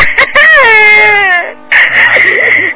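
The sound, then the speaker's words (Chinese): An old woman cries loudly in high, wavering wails. A long sobbing cry breaks off briefly, then resumes in a second strained burst. “老妈妈不要哭了啊！”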